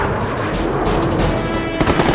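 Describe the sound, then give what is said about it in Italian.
Cannon fire from a formation of four twin-engine Me 262 jet fighters opening up at long range on a bomber stream, a dense, continuous rattling roar of rapid shots with a heavier thump near the end. “Una formazione di quattro jet entra in azione aprendo il fuoco con i loro cannoni da lunga distanza prima che i Mustang”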